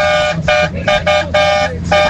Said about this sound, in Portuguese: Aquela buzinada gostosa, vai!